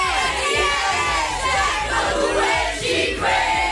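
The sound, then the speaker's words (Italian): A crowd at the Foro Italico sings the RTL radio jingle together as a loud chorus, a dense, continuous wall of many voices chanting and shouting in unison. “li hanno preparati loro come vocal coach a fare il nostro coro, il nostro jingle. Ragazzi, siete pronti? Jingle di RTL. 3, 2, 1”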